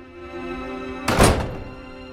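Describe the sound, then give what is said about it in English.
Single dull thud of a door closing as a man steps outside into daylight, heard against a steady tonal background. “He makes his way outside into the daylight and closes the door behind him.”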